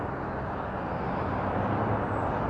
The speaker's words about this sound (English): actually just looking at the bus. This bus and this truck and this SUV passing by.